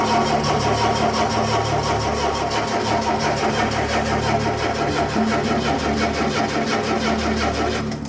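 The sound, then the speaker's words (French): An out-of-fuel car engine cranks without catching, giving a continuous, loud, rhythmic whirring churn that holds steady for the whole clip and never settles into running. “Pas d'essence. Voyons voir s'il y a une étincelle. Ils ont beau s'appliquer, ça ne démarre pas.”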